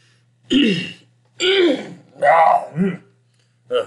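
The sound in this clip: Throat clearing comes as a series of several rough, guttural bursts separated by short pauses, loud and close, with a brief final rasp at the end.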